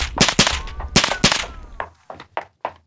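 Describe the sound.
Gunfire laid down as cover fire during a street shootout: two quick pairs of loud, sharp shots, followed by a few fainter, spaced cracks.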